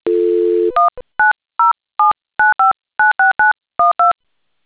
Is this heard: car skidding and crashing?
no